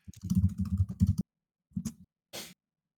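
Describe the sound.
Someone types on a computer keyboard: a quick flurry of clicking keystrokes lasting just over a second, then a pause and two short bursts of taps.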